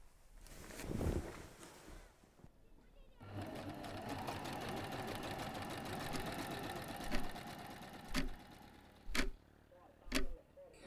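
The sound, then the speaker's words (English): A sewing machine stitches fabric in a steady, fast mechanical whir that runs for several seconds after a quieter opening. Toward the end, a few louder thumps and clicks break through the hum. “I'll just be right here sewing this up.”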